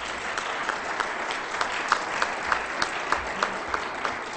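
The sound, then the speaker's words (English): Applause from a church audience welcoming a visiting evangelist speaker from the Church of the Nazarene: an even, continuous patter of many clapping hands with no voices on top. “Would you welcome him with a hand?”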